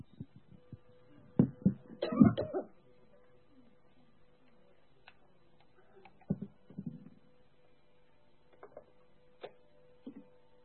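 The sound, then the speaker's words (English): Throat clearing by a person hoarse from singing and shouting: a few rough, rasping bursts with quiet gaps between, the loudest cluster early on, then softer scattered ones. “Just pray a minute and I'll settle my throat down.”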